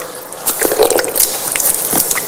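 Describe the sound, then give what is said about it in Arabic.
Water splashes and squishes as hands scoop it up and wash the face during ritual ablution, a continuous run of wet, sloshing strokes with no talk. “هكذا أخذت الماء بيدي ثم غسلت وجهي، أعيدها مرة ثانية، أو هي ثلاث مرات في الأصل، هذه الثانية، هذه الثالثة،”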